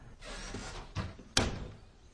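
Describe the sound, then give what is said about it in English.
A door closing, heard as a few soft scrapes and knocks leading to one sharp, firm shut that quickly fades. The sound is fairly quiet, with no talk. “so does Lizzie, closing the door behind her”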